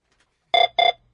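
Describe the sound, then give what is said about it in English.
A telephone rings loudly and alone in two full bright, buzzing electronic bursts at a quick, even rhythm, with a third ring just beginning as it ends. “The phone's ringing again.”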